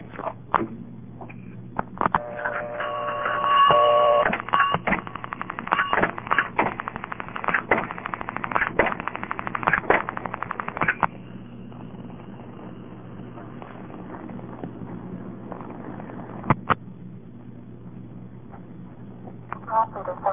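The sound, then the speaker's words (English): Telephone dialing with digits repeated back on the line: a rapid run of sharp clicks and tonal bursts over a steady low hum, then a quieter stretch with a few scattered clicks. “then with the recording on I'll start dialing some more digits and you'll hear that every digit I dial is repeated.”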